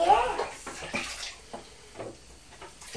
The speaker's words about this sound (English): Fill it. Is it going round and round?